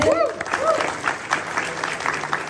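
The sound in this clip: Audience applause for cosplayers at a Comic Con event: steady, dense clapping through the whole clip, with raised voices from the crowd mixed in near the start.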